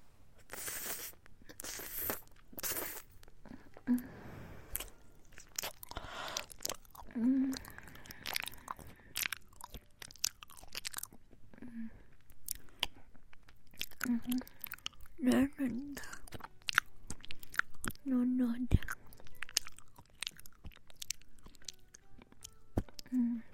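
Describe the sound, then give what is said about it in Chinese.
Someone bites and chews a sweet, soft banana, making many gentle bites and moist chewing sounds. These come and go, faint, with a soft voice speaking at times. “好不好吃啊？是不是甜甜的、糯糯的？好，姐姐来吃一口啊！第二口姐姐来吃。”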